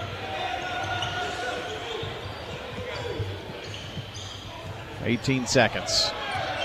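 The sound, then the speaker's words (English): Basketball dribbled on the court during a game between Oakland and the Blaze, soft repeated bounces beneath steady crowd noise and voices that grow louder toward the end. “Carruthers backs it up with 26 seconds. They'll go for one, I'd say.”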